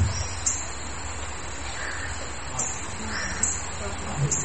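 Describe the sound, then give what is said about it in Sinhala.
A crow caws several times over a steady, noisy background, each call rough and short. “කුරුල්ලෙක් කය ගහනවා. ගන්න කුරුල්ලෙක් ගන්න ඔය ඇහෙන ලද්දද?”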